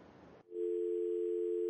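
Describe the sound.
A steady telephone dial tone follows a caller's dropped line, beginning after a short burst of rough noise that cuts off abruptly, then holding as one level, continuous hum.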